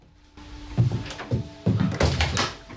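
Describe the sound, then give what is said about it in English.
A door opening: a few muffled clunks and knocks in an uneven rhythm, with a faint steady hum beneath. “The door opens”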